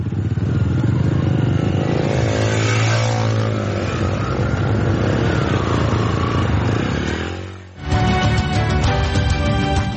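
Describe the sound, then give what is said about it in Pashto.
Motorcycles of 125 cc and 150 cc riding off one after another, their loud engines droning and revving with wavering pitch. One engine briefly fades before another roars in strongly. “125 cc د سرو رنگونو موټر سایکل وي خو وسیم سره تور رنگ 150 cc موټر سایکل او وار په وار یو بل پسې روان شو”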